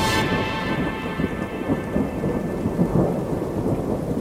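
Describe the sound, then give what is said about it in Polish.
Distant thunder rolls in a storm, a deep, continuous rumble with no sharp crack, heard over the steady hiss of falling rain. “Ale znów odezwał się daleki grzmot.”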